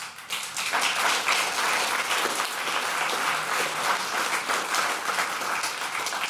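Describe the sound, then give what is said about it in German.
Applause from the audience in a packed hall: dense, steady clapping from many hands fills the whole stretch at an even, fairly loud level. “Und Sie hören es, der Saal ist rappelvoll.”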